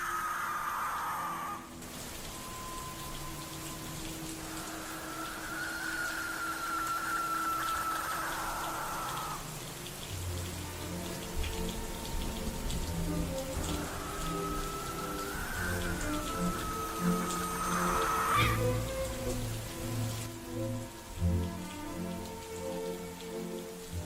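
Heavy rain falling in a garden, a steady dense patter of drops that runs unbroken through the whole stretch at moderate level.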